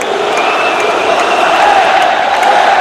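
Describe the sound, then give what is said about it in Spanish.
A sports crowd shouts and roars to pressure the referees during a video review of a decision, a continuous loud wash of massed voices with no breaks. “El público metiendo mucha presión. Mucha presión.”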